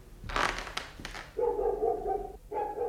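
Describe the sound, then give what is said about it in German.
A dog barks at a house, a few short, sharp barks, then two longer, steady tonal calls, fairly faint. “der Mino bellt schon wieder. Nee, lass ihn bellen.”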